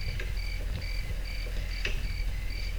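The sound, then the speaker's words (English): Crickets chirping on a film soundtrack, a steady high, pulsing trill repeating in regular bursts over a low background rumble, fairly faint and with no talk. “I can't tell if it's the movie or here the crickets. It's the movie.”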